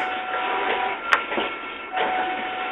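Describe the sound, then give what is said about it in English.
An office photocopying machine runs with a steady, loud whirring hiss, broken by one sharp click near the middle and a few soft swells of motor noise. “this is the photocopying machine in the office.”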